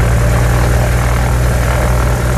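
Propeller drone of a light airplane taking off: a loud, steady engine roar with a strong low hum that holds unbroken throughout.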